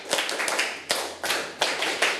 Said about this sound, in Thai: ปรบมือ1ครั้งปรบมือ1ครั้งปรบมือ10ครั้ง